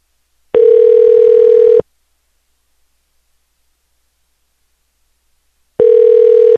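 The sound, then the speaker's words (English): Ringback tone of an outgoing call to a man's phone: two long, steady, buzzing tone bursts separated by several seconds of silence, with no voices. “we're calling this guy's phone. Or I am calling.”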